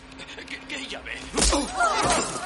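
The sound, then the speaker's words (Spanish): A punch lands on a bank employee during a robbery in the thriller Heat: one heavy thud midway, amid tense scuffling, with a voice following. “Le da un puñetazo.”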